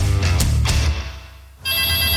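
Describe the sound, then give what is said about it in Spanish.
An apartment intercom buzzer rings: a loud, harmonically rich electronic buzz that starts abruptly and holds steady to the end, after a brief stretch of other sound that fades out. “¡Contesta tú el citófono, po, que estoy ocupada!”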